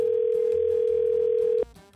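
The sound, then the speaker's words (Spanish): Ringing tone of an outgoing phone call: a steady, single-pitched electronic tone holds unbroken for about a second and a half, then cuts off abruptly into a brief, uneven burst of other sound. “Estamos llamando en estos momentos.”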